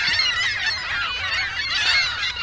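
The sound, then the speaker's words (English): Gulls call from a flock gathered in a visitors' parking lot on the Lake Michigan shore beside a power plant. Many shrill, overlapping squawks run continuously and loud throughout. “Dozens of gulls gather in the visitors' parking lot at Point Beach.”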